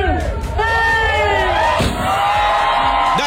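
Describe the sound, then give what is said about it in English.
Crowd cheering and whooping at the ribbon cutting for Dolly Parton's travel stop in Cornersville, Tennessee, with many excited voices shouting and calling out together in a loud, lively burst. “the crowd goes wild.”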